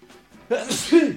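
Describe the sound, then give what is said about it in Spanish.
A person sneezes: a faint, breathy build-up gives way to a sudden loud burst, then a voiced, trailing exhale. “¡Qué momento más duro! Ha sido como un estornudo de 10 segundos. Llevabas sí. Cargándolo como 10 segundos.”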